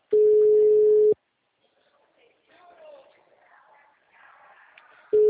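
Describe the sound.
A telephone rings on an outgoing call. A loud, steady, level ringback tone lasts about a second, then a long quiet gap with faint background sound, then the tone starts again at the end.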